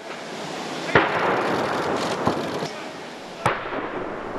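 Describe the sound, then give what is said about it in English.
Ceremonial gun salute on the lawn of Buckingham Palace at a state welcome: three sharp booming reports, roughly a second apart, stand out over a constant broad wash of noise. “To the sounds of gun salutes”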